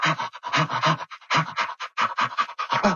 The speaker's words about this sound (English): they do that by opening their mouth very widely and making kind of short breathing sounds that sound like